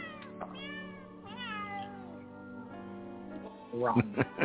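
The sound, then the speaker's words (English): Cats meowing as they are squeezed, edited into a sequence of high, warbling meows with sliding pitch, ending in a few short, sharper cries. “So we got our cats to do this. It was pretty cool. It took us hours of editing. Hours. Plus the cats got tired of getting squeezed”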